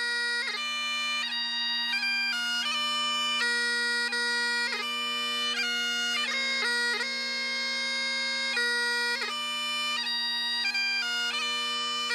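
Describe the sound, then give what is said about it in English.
A lone bagpiper in Inverness, Scotland, plays a tribute to World War II heroes: a loud, steady drone sustained beneath a shifting chanter melody that runs continuously throughout, with no voices. “Here's the sound of a piper from Inverness in Scotland.”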